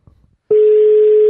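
A telephone line tone sounds while a call is being placed. After a near-silent opening with a few faint rustles, one steady mid-pitched tone switches on abruptly and holds, unbroken and loud, to the end.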